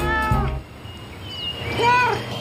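A cat meows at its owner in a couple of short, clear, harmonic calls with rising and falling pitch, moderately loud over a low background hum.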